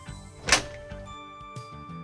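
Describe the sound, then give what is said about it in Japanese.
A door being opened: a single sharp thunk near the start, over a faint steady tonal background with a few softer knocks afterward. “とりあえずドア開けますね。”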